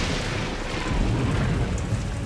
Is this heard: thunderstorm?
yes